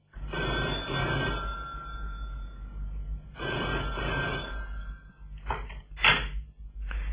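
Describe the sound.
An old-style telephone bell rings in two long, loud bursts, followed by a few short clicks and knocks.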